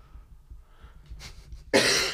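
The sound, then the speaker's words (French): A single sharp, loud fake cough from a person pretending to cough to win a game. Faint low rumbling comes before it. “il fait semblant de tousser pour gagner”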